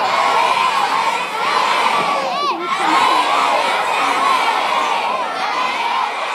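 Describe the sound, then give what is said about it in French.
Elementary school pupils in St. John's, Newfoundland, cheer and shout encouragement for a hockey player, a loud and dense crowd of high children's voices that keeps up its whooping without a break. “On entend des élèves de l'école élémentaire Vanier à Saint-Jean-de-Terre-Neuve qui encouragent Alex Newhook du Canadien de Montréal.”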